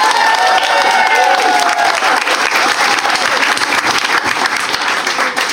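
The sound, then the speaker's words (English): Studio audience applause and cheering for a criminal defence lawyer welcomed as guest expert on a panel show: dense, steady clapping throughout, with whoops and whistle-like cheers standing out in the first couple of seconds. “Very unusual for a lawyer to be cheered up to this platform.”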